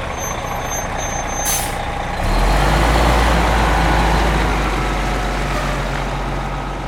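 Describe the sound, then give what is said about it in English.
Large motor coaches rumble out of a transit center at dawn: a deep, heavy engine drone swells and holds steady, preceded by a short hiss of air brakes and faint high beeping. “Four large motor coaches rumbled out of Port Townsend's Haines Place Transit Center at dawn Saturday morning, headed for Judkins Park in Seattle”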